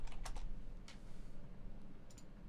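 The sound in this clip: Typing on a computer keyboard while a news item is being edited: faint, sparse keystrokes, with a few quick clicks at the start and another small cluster near the end.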